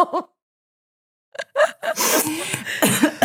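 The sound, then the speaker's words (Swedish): Coughing and sputtering from choking on saliva while laughing hard: a short laugh-like burst, a pause of silence, then a loud run of harsh coughs and gasping breaths. “Jag satt och så saliv i halsen för att jag skrattade så hårt.”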